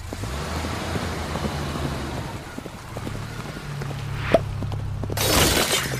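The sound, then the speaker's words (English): A Kia Sorento crashes into an arena: a steady low engine rumble runs throughout, then comes a single sharp impact, followed by a loud burst of shattering at the end. “It seems a jouster in a Kia Sorento has just entered the arena.”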